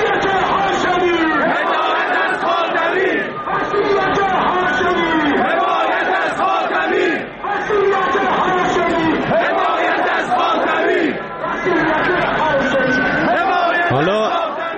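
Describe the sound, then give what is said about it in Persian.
A large crowd chants slogans at a funeral, with loud massed voices shouting in rhythmic bursts that continue almost without pause. “حالا نکته بامزه این بود که تو این تشییع جنازه شعار دهندگان غیر خودی امکاناتشون هم بیشتر شده بود. مثلا بلنگو آورده بودن”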